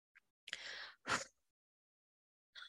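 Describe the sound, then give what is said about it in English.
A deep out-breath during a guided relaxation breathing exercise: a breathy rush of air lasting about half a second, then a shorter, stronger puff, followed by near silence. “Purifying love, cleansing energy, and breathe out”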